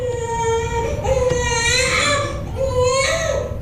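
A healthy newborn baby boy cries just after birth, a continuous high, wailing cry in long drawn-out bursts that rise and break repeatedly.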